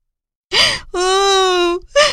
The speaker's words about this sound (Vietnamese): Tí Hon hoảng sợ, òa khóc nức nở.